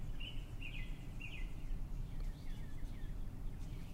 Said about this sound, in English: in the moments of silence that occur throughout this episode, you will probably hear the birds in the background.